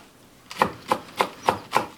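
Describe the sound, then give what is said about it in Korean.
Knife chopping onions and carrots finely for fried rice: six evenly spaced, crisp chops on a board, steady in rhythm and fairly soft, with no talk. “양파와 당근을 잘게 썰고”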